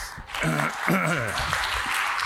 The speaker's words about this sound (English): So if you could all give me a hand, welcoming Phil up to the stage.